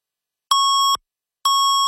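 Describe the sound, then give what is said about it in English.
Radio time signal double beep on a news station: two identical steady, clean electronic tones, each about half a second long and separated by a half-second pause, loud and alone. “680 News Time at the double beep.”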